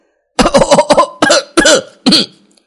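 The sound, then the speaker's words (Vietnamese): Violent, dry coughing from someone choking on a mooncake: a rapid run of about five harsh coughs, then three heavier separate coughs, loud and alone. “Đại Bất Phàm bị bánh trung thu làm cho mắc nghẹn, bỗng nhiên ho khan kịch liệt, không ngừng đánh ngực.”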